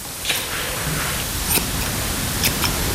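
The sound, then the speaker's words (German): Scissors snip the fur on the feet to trim it into shape, giving a few short, sharp cuts over a steady background hiss. “Die Füßeform ein bisschen schneiden.”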